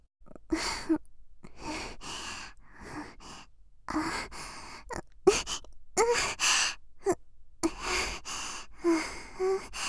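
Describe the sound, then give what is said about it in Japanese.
Close-up sniffing through the nose: many short, sharp sniffs and breaths come in irregular bursts, separated by brief silences, some louder and some faint. “思う存分、たっぷり嗅いでください。鼻息、くすぐったいです。”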